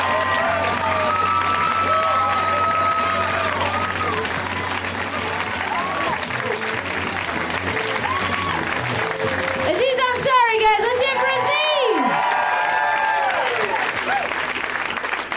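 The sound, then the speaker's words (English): A comedy show audience applauds a comedian with steady, dense clapping throughout, mixed with cheering and scattered shouted voices. “Let's hear it right now for Mr. Aziz Ansari, guys. Give it up for Aziz.”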